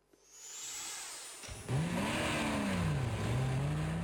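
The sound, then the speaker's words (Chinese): A jeep's engine roars as it speeds out of a parking lot. After a short gap the loud revving whine swings up and down in pitch while the vehicle accelerates away. “吉普车风驰电掣般冲出了停车场”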